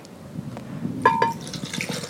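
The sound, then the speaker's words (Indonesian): Young coconut water poured into a container, a soft continuous trickle with a couple of brief ringing clinks midway, heard alone without talk. “Itu isi kelapa ini ya? Iya, kelapa muda. Air kelapanya tambahin. Air kelapanya tambahkan.”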